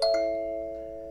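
A plain chord struck on a nine-note pentatonic sansula, a bright metallic attack followed by warm, steady tones that ring on and fade slowly.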